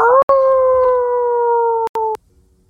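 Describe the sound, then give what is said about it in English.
A wolf howling in a snowy, rocky setting beside a small cliff. It holds one long, steady mid-pitched tone for about two seconds, drifting slightly downward, then cuts off abruptly. “a wolf standing on the cliff. As that happens, you also see another larger wolf with completely white fur turn around the tree. As you hear a chorus of other wolf howls from”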